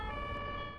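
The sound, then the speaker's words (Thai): A brief snatch of ambulance siren is heard: a steady, held electronic tone at one pitch. It is fairly faint and lasts under a second. “รถพยาบาลน่ะ”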